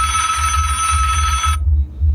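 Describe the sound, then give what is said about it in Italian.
A mobile phone rings beside someone sitting on a bench. The bright, steady, bell-like tone sits over a constant low hum and cuts off abruptly about two-thirds of the way through. “Si risiede. In mezzo alla panchina. Squilla il cellulare.”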